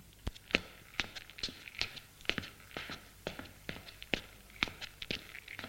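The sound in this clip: Footsteps walking along an office corridor on the fifth floor of a new building at La Défense: many crisp, evenly spaced steps at a steady walking pace, with no voices.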